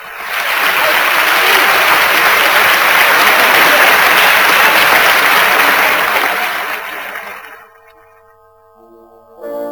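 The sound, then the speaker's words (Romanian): A Paris audience applauding, a thick, even wash of clapping that stays loud for about seven seconds before fading away almost to silence. “Vieni, aclamă publicul! Publicul din Paris?”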